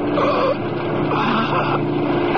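A car speeding around a corner gives a loud, continuous engine roar with shifting tones throughout, dense and steady from start to end.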